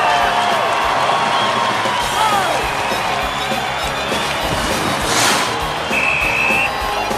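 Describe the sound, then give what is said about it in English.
A crowd roars wildly at an ice hockey game as a player slams the puck toward the goal in the closing seconds of a tied match, a sustained wall of cheering with whoops rising out of it. “Jack slams the puck towards the goal. The crowd go wild.”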